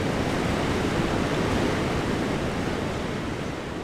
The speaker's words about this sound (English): white water is churning, sending an ominous roar up the narrow sandstone walls.